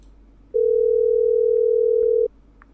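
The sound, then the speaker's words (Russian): A telephone ringback tone plays while a call goes through to a blue Nokia mobile phone. A single steady, mid-pitched tone holds for under two seconds, loud and alone against faint line hiss. “Звоню тебе сейчас синенького Nokia.”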